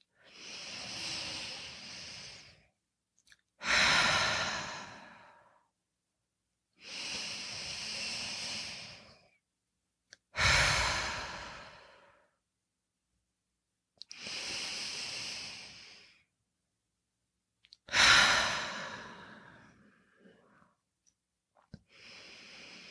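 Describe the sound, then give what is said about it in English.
Three slow, deep breaths in a guided relaxation exercise, each a soft inhale through the nose followed by a louder, breathy exhale through the mouth, with quiet pauses between them. “let's take 3 deep breaths together, in through the nose and then release and exhale through the mouth.”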